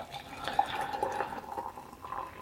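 Hot water is poured into a mug to warm it, making a soft, steady liquid trickle with faint splashy flickers, quiet throughout.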